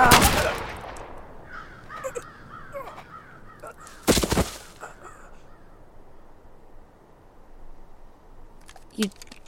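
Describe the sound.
Gunshots in a tense drama scene: two loud, sharp bangs several seconds apart, each with a short decaying tail. Crow-like cawing sounds between them, and a faint, brief knock near the end.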